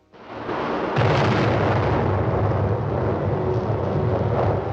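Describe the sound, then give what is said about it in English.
A volcanic eruption blows the top off a mountain as a loud, dense roar and rumble that swells sharply after the first second, then holds steady and powerful to the end. “The top of the mountain explodes.”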